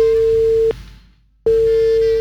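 A telephone busy tone after a call is cut off: a steady mid-pitched tone sounds, breaks into silence for under a second, then resumes just as loud.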